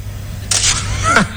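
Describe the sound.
A camera snaps a photo with a short, bright, crisp click burst, then a faint second click, heard over a low background hum.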